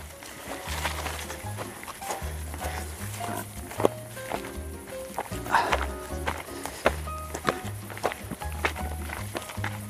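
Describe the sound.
Footsteps walking uphill over the last stretch of a climb, many steady treading steps in an even rhythm with some sharper footfalls, against a low background hum.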